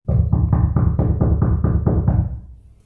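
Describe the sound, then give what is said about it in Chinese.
Knocking on a door: a rapid, steady run of many firm knocks at an even rhythm, loud and alone, ending in a brief fading tail. “于是佢又敲门啦，”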